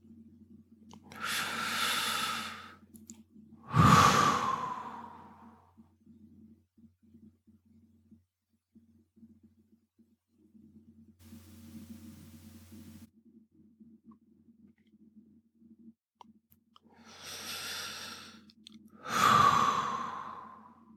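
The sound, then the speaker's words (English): Slow meditation breathing: two unhurried breath cycles, each a soft inhale followed by a sighing exhale, separated by a long, near-silent breath hold. “Nothing to do, just the easy in-breath, out-breath, and hold. Effortless stilling of the mind.”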